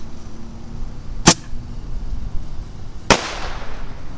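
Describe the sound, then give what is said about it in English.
Firework rockets exploding: two sharp, loud bangs a little under two seconds apart. The second is followed by a hissing, ringing tail, and both stand out over a steady low background noise. “Here goes another rocket.”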